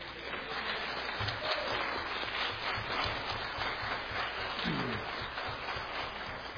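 Applause from a church audience welcoming a couple back after illness: dense, steady clapping that holds at an even loudness throughout, with no voices.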